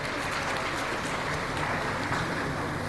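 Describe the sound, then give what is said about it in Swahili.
Audience applause at a Tanzanian ceremony honouring tax-collection reforms: dense, continuous clapping that holds at an even, steady level throughout, with no single voice standing out. “Makofi tena mengi sana.”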